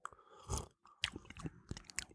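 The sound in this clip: Someone sips and tastes rum, making quiet mouth sounds: a few soft wet clicks, smacks and swallowing noises in irregular bursts, with no talking.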